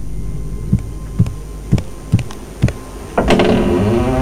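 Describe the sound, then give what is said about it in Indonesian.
A house door is opened on a rainy day. Five dull, evenly spaced knocks come first, then a louder rattling scrape as the door moves. No voices are heard. “Buka pintu, mak.”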